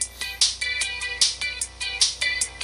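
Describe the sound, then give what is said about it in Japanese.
A bright electronic phone notification sound: a rhythmic pattern of rapid, repeating high chiming tones, loud and steady, played alone without talk. “通知。”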